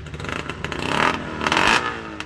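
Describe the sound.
Snowmobile engine revving after being started again once water is drained from it, at a drizzly outdoor pond event, a rough rattling roar that surges twice with crackling clatter throughout.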